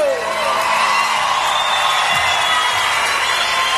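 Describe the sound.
A reggae concert crowd in Argentina cheers and applauds, a loud, continuous roar of massed voices and clapping with no break.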